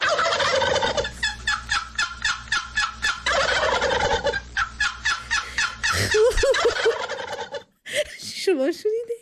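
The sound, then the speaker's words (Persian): A fowl gobbles loudly in long runs of rapid, rattling notes, then gives a few shorter, wavering calls near the end. “شما شنیدید این مرغ را در جای شما چی میگوین”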